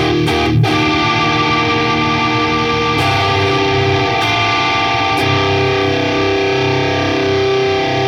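Distorted electric guitar played through an Axolotl and a Klon pedal running in parallel, a few struck chords ringing out into a thick, sustained, buzzy wash with a steady loud level throughout.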